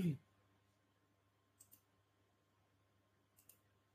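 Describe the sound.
Computer mouse clicks while a file is being reopened: a soft thump at the start, then two pairs of quick, sharp, faint clicks spaced apart, over a low steady hum.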